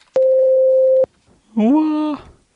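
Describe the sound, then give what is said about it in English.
A voicemail beep: one steady, loud tone holds for just under a second, then stops cleanly. After a short pause, a brief voiced sound follows. “Leave you a message after the tone. Voicemail.”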